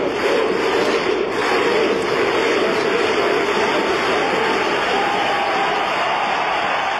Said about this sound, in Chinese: 冰岛队的维京战吼，就是哇，就是一加油起来，就感觉像是在狮子吼一样。